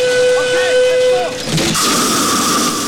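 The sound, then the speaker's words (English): Steam escapes from a vast wooden and metal contraption: a steady whistling tone sounds first, then a loud, rushing hiss bursts out and continues to the end. “Steam escapes from a vast wooden and metal contraption.”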